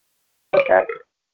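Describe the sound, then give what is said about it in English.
A single loud, voiced burp from a burping contest lasts about half a second, with a rough gurgling rasp that trails off, in otherwise silent surroundings. “We have contests of burps.”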